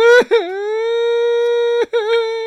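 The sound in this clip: A young boy cries in a long, sustained, steady-pitched wail. Two brief catches of breath split it into three drawn-out stretches, and it stays loud throughout.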